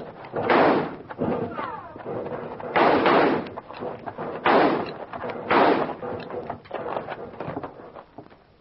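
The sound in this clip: A volley of gunfire in a rocky canyon during a western shootout: several loud, booming shots with echoing tails at irregular intervals, mixed with smaller sharp cracks between them, in a narrow, muffled recording.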